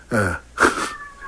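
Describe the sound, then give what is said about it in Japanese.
Two short, harmonic cat meows, the second brighter and slightly longer than the first, over a faint steady tone. “猫が鳴いてます。”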